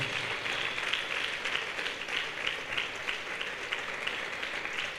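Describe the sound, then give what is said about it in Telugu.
An audience claps in praise of the Lord during worship, an even, rhythmic pulse of hand claps that keeps a steady beat throughout. “చప్పట్లు కొట్టి ప్రభుని మహింపరుస్తా”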